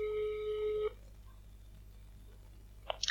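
A single telephone ring tone sounds during a call to nurses. It is a steady, buzzy tone lasting under a second, followed by quiet line hiss and a few faint clicks at the end.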